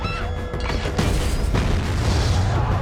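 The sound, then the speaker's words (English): Rocket fire during an army attack on a village: a loud, sustained rumbling boom with a broad roaring blast, swelling sharply at about one second and again soon after, with no voices. “The village is attacked with rocket fire. A rocket is primed.”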